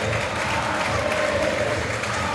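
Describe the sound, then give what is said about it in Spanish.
Stadium crowd applauding Boca Juniors captain Paredes as he leaves the field, a loud, dense, sustained roar of clapping and crowd noise without a break. “Qué amor que hay, entre Boca, Paredes, la hinchada. Aplaudido, ahí se retira el capitán de Boca”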